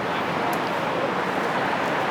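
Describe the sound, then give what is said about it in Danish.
Steady street traffic passes at a pedestrian crossing while the light is red for walkers, a continuous broad roar with no distinct events standing out. “Så lige nu er der rødt for fodgængerne, så derfor så venter vi med at gå ud. Vi går nemlig kun ud, når der er grønt for fodgængerne, og bilerne holder stille.”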